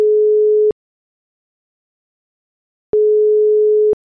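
Ringback tone of an outgoing phone call: two steady, pure mid-pitched tones of under a second each, separated by a long stretch of silence.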